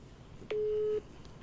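A single steady telephone tone lasting about half a second as a call is placed to a family member, a plain mid-pitched beep standing out over low background hiss.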